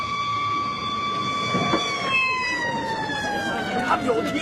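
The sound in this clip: Emergency sirens of a police car and fire engine arriving: a loud, high wail that glides slowly downward in pitch over a steady, noisy rumble.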